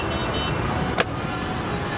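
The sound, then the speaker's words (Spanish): Steady engine and road noise comes from a car whose automatic gearbox is failing, with one sharp clunk midway through the constant rumble. “No, me falla la caja automática. Seguro la tengo que mandar a Buenos Aires.”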